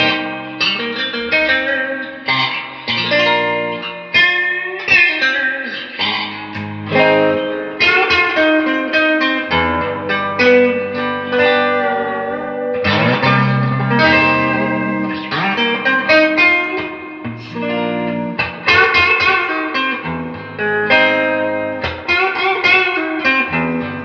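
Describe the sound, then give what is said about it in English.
Dark reverb effect on an instrument played with its tone knob turned all the way down: a dense, washy wall of sustained notes and chords with a smeared, muffled top, continuous and loud, with no talking. “Let's see, just get a darker sounding reverb out of it. Yeah, which sounds pretty good.”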